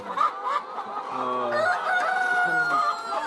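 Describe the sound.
Chickens at a poultry farm holding about 6,000 laying hens: many overlapping clucks and drawn-out squawking calls, continuous and fairly loud.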